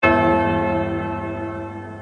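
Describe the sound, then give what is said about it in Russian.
A single loud bell strike rings out with a sharp attack, then a long, rich metallic hum of sustained tones that slowly fades. “Оглушающе ударил колокол.”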